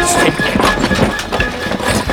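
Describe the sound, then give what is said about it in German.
Galloping horse hooves as a rider charges toward the player in a video game, rapid thudding beats in a loud, busy mix. “Da kommt ein Reiter auf einem Pferd. Der kommt direkt auf uns zu.”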